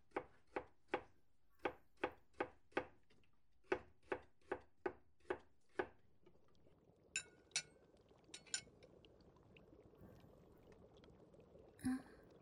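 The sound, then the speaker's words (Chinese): A knife chops food while a curry pork cutlet rice dinner is cooked: many quick, evenly spaced chops in two runs, then a few light glassy clinks and one last knock over a soft background hiss. “主人怎么一直看着我做饭呀？”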